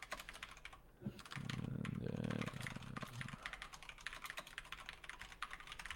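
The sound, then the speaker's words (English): Someone types a note on a computer keyboard, producing many quick, irregular key clicks in a continuous rapid stream. “Um, actually, I'm gonna write a note so I don't forget.”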